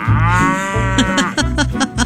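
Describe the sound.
A cow moos with a long, deep, steady call, then breaks into several shorter pulsing lows, loud and alone without any voices.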